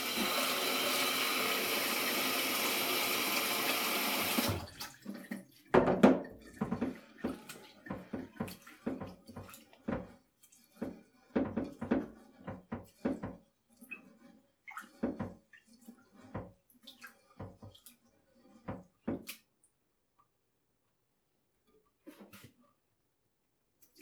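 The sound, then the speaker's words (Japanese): Rice grains washed in water: a steady rush of running water at first, then many irregular swishing splashes and drips as the grains are stirred, faint overall and ending in quiet. “どのくらい洗えばいいのかよくわかんないよね。ああ、一粒流れた。”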